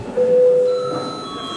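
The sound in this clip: A single electronic bell tone rings in a parliamentary session to call members to registration. It is a clear, steady ring that sounds briefly and then fades, leaving a faint higher overtone lingering.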